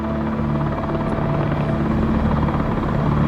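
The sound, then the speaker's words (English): A green helicopter hovers low over a walled prison yard, its rotor making a loud, steady droning thrum with a constant low humming tone throughout. “The helicopter comes up over the wall, and it's hovering over the yard.”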